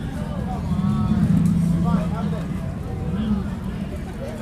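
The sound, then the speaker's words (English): The small running motor of the Mater vehicle in front of the Cozy Cone Motel on a neon-lit street after a parade: a steady low engine rumble that continues throughout, with voices and crowd noise over it. “See, you can hear that little running motor over there. It's Mater in front of the Cozy Cone Motel.”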